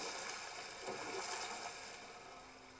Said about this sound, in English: All right, so we dock our boat.